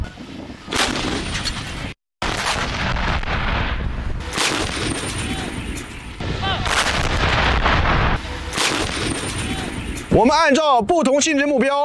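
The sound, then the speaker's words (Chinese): Artillery fire during a military live-fire exercise with multiple fire groups engaging targets from flank positions: several heavy, booming blasts in a loud, continuous rumble, with a voice speaking over the final seconds. “第二火力组立即接替火力任务，在侧翼阵地对不同性质目标实施精准打击，掩护第一火力组安全撤离。”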